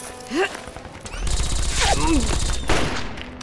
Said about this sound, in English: He's shooting back! Open fire! He's firing from inside the house.